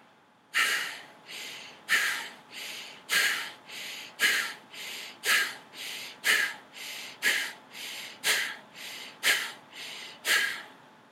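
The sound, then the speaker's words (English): Forceful Bhastrika yogic breathing: a steady train of about ten paired breaths, each a sharp, loud exhale followed by a softer inhale, in an even, pumping rhythm with no talk. “So here is Bhastrika. Exhale the breath completely. Inhale.”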